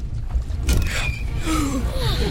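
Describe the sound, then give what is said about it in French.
Rough sea water surges against a rocking Roman liburnian galley, with a broad steady wash of waves and several gliding, creaking tones of straining timber. “Les flots sont agités et ça tangue à bord des liburnes.”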